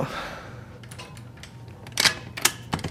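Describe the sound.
A troublesome door being opened or shut, with faint shuffling followed by a few sharp, loud clacks and rattles of the latch near the end.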